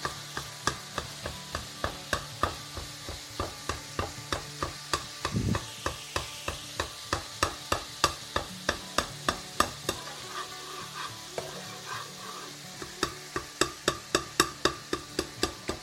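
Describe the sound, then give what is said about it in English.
Browned minced meat fries in a pan while being broken up, a steady sizzle under many regular, sharp scraping and tapping strokes of a utensil, with a brief lull in the strokes partway through. “Now what I'm going to do is actually now start to break the meat up. You can hear that?”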